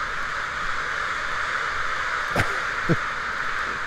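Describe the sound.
Crows cawing in a town square: two short, harsh calls about half a second apart, rising above a steady background hiss.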